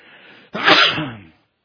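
A single loud sneeze bursts out after a faint low rustle, then tails off within about a second.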